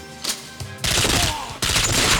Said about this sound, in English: if I were James Bond, this is exactly how I would infiltrate a castle. Just guns blazing.